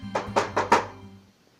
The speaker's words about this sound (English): Go ahead. Reach out and touch it. It's a real door.